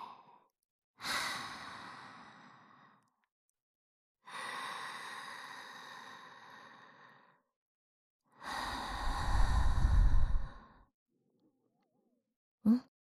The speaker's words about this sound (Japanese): それからゆっくり深呼吸して。そうそう、吸って、吐いて、